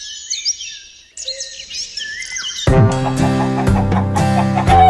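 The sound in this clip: Calls of exotic, endangered endemic pigeons from a large zoo collection in Warsaw: quick, high chirps and whistles in short bursts, later overtaken by a louder, dense, sustained tonal layer.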